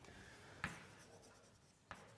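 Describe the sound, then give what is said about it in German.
Faint scratching of a hand writing something down during a mathematics lecture, a soft, steady scrape marked by two brief, sharper strokes. “Schreibe ich einfach mal hin, bevor überhaupt klar ist, wo das gebraucht wird.”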